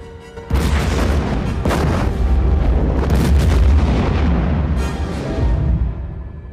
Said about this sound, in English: Fire. Their torpedoes hit and destroy the ship.